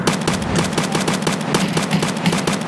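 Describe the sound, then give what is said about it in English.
Rapid gunfire in a video game gunfight: many automatic shots repeat in a fast, steady rhythm throughout, loud and continuous with no pauses. “Ooh, we're in a gunfight, everybody. Exciting.”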